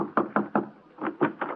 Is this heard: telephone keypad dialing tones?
no

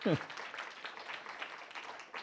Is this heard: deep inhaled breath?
no

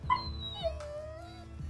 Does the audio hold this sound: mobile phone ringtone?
no

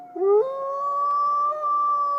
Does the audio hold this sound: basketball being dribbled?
no

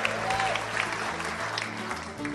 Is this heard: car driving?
no

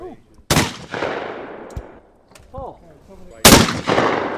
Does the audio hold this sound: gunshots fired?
yes

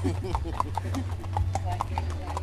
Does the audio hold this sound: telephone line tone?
no

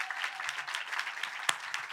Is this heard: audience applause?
yes

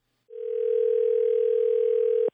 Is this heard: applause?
no

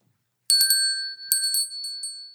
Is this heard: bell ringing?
yes

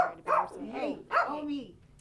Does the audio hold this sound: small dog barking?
yes

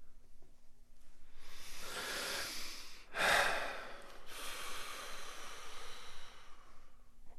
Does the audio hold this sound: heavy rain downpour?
no

